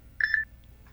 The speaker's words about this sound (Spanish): ¿Qué es lo que le pita a usted por ahí? Nada, que me estoy comunicando con un pacientito y coincidió que el micrófono ya lo había abierto,